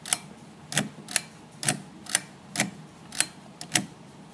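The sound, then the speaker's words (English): Sharp, dry clicks from a household lamp switch being turned on and off, a series of crisp snaps at a roughly even pace with faint background hiss between them. “That was the sound of my lamp turning on and off.”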